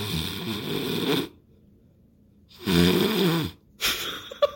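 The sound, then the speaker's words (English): A person imitates snoring with a few long, raspy, throaty rumbles separated by short silences, fairly loud and without other talk. “I don't know why I had to go through the authenticity of a snoring sound, but I went through it, and I committed it”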